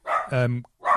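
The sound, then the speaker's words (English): A dog barks a few times in short, loud, tonal bursts, with a brief pause before the last one. “I strongly agree with what the dog is saying. He's got a point. Give me a sec. Always got an opinion. Always got an opinion, that dog.”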